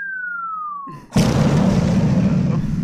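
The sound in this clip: A bomb explosion sound effect: a clear whistle slides steadily downward, then a loud, roaring blast hits and sustains as dense rumbling noise to the end.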